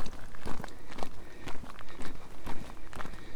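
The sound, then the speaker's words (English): Footsteps on a walk through woodland, an even, unhurried tread of soft thuds at roughly two steps per second, moderately loud with no voices. “An uneventful walk through woodland.”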